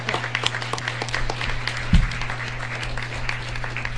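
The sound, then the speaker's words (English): An audience applauds volunteers at a community event with scattered, uneven claps over a steady low electrical hum. One louder thump falls midway. “So can we please give them a big round of applause, because we can't do this without our volunteers.”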